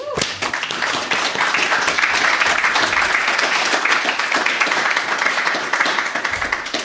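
Applause from an audience at a poetry reading, welcoming the last poet to read: thick, continuous clapping from many people that holds a steady level for about seven seconds.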